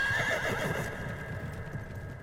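A horse whinnies with a high, wavering cry that holds steady and then trails off, with a low hoof clopping running underneath.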